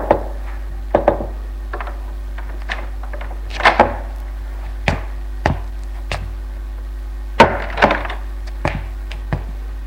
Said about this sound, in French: Il frappe et entre dans la chambre de Maxime.